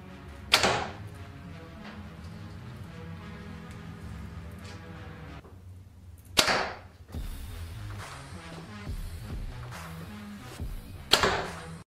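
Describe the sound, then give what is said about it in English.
Arrows shot from a bow without a sight strike in three sharp, cracking impacts spaced about five seconds apart, each decaying quickly over quiet background noise. “That's some good shooting, guys. No sight. Look at that. Would you look at that accuracy? No sight.”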